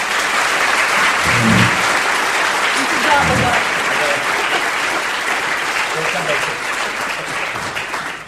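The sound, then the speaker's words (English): An audience at an evening lecture on Putinism applauds to welcome the lecturer. The dense, steady clapping carries on for about eight seconds, easing slightly in loudness toward the end. “I would like you all to put your hands together.”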